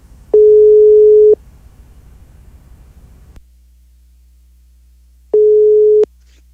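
The ringback tone of an outgoing phone call sounds as two steady, mid-pitched beeps of about a second each, several seconds apart, over faint line hiss that drops away between them.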